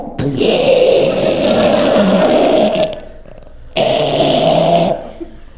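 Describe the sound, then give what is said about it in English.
A man's voice imitates someone's breathing changing into snoring as he falls asleep. Two loud, rasping, growly snore-like breaths come with a pause between them, the first long and the second shorter. “So he would fall asleep. And people knew he was asleep because his breathing changed. So normally he breathed like this. And then when he would fall asleep, it turned into this.”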